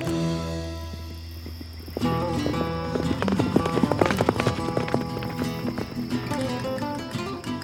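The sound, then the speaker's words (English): Horses galloping, with rapid clip-clop hoofbeats that begin partway through and keep going under a loud orchestral music score. “the masked man galloped back to the pueblo, arriving in the shadows.”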